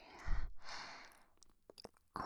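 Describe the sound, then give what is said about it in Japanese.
Soft breath blown into the ear in an intimate whispered setting: two long, airy exhalations, followed by a few faint mouth clicks and quiet breathing. “耳に息を吹き込みながらやるのもいいみたいだね。こうやってふーって吐息とか鼻息も。”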